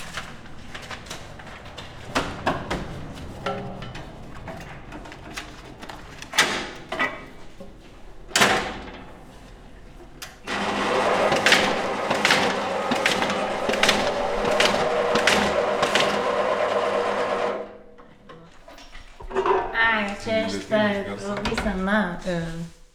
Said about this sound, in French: Ça, c'est une machine qui est très très ancienne, qui est très capricieuse. Mais on l'a eu vraiment vraiment pas cher d'une ancienne imprimerie.